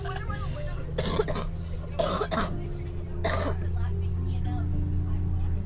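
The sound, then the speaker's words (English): Hearty coughing from a person who is sick: a few loud, harsh bursts in quick succession over a steady low hum. “You guys hear that? Yeah, that's what you call a hearty cough.”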